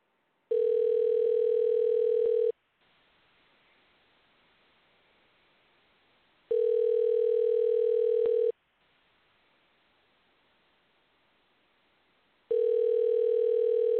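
Ringback tone heard while phoning a guest: three long, steady electronic rings of about two seconds each, separated by longer stretches of faint hiss, with the last ring cut off at the end.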